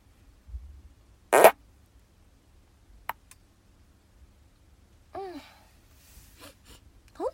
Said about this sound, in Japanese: おならが出そうなので出していこうと思います。